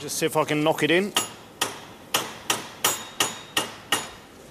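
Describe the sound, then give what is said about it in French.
Sharp metallic hammer strikes on a bolt used as a punch to drive out a stuck hex screw whose Allen key spins uselessly, holding a badly worn disc. A brief voice comes first, then a steady, evenly spaced series of bright, ringing taps. “Ma clé Allen tourne dans le vide. Je vais utiliser ce boulon pour voir si je peux virer la vis.”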